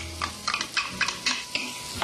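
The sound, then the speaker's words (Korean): Stirring onions, garlic and green pepper in olive oil in a pan over medium heat, a series of soft rhythmic scraping strokes over a faint sizzle. “And we stir.”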